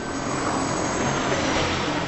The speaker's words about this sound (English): a medevac helicopter circles the sky.